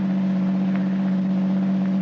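Engine drone of a car turning off a highway and driving away up a side road, a loud, steady, unbroken hum with no voices.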